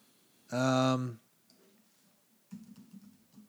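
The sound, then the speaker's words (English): Typing on a computer keyboard: a quick run of soft, muffled key clicks in a fast, uneven rhythm, following a short burst of voice. “I can only type so fast, by the way.”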